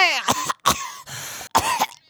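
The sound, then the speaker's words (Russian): Coughs from an elderly woman sitting on a bench: a few loud, rough bursts separated by short pauses, heard alone with no talk. “Так я ж кашляла, а не чахала.”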